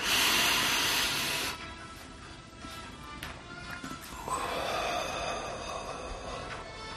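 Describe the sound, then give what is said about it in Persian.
Deep breath, a loud, airy rush of breath at the start that drops to a softer hiss, then swells again into a second long, breathy stretch. “یه نفس عمیق بکش تا بهت بگم یعنی چی.”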